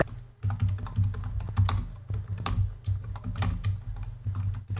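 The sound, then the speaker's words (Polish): Rapid typing on a computer keyboard, including a press of the F2 key, while working in the channel editor of a DVB-T2 TV receiver. Many quick, crisp key clicks run continuously over a steady low hum. “Bardzo dobrze, naciskam F2. Piszemy sobie.”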